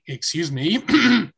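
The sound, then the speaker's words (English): A person clears their throat in a short, rough burst: a few raspy voiced pushes over about a second and a half, fairly loud and with no other talk. “I had to clear my throat.”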